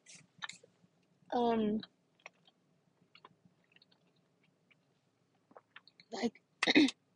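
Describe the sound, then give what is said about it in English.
Chewing as a person eats pistachios, heard as a few crunchy, moist bursts of varying length separated by quiet gaps, with one longer, louder bout of chewing near the start. “so you're gonna hear me chewing, that's gross”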